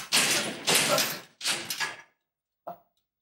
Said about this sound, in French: La porte s'est fermée.